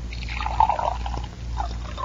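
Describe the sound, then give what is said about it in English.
Water is poured into flower vases as a soft, steady trickle that runs throughout, swelling slightly early on, then continuing evenly at a fairly low level. “I'll pour water into these vases.”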